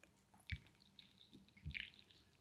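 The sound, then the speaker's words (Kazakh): People drinking tea make a few soft, wet sipping and slurping sounds, brief and faint and separated by quiet pauses. “Шай ішіп жатырмыз.”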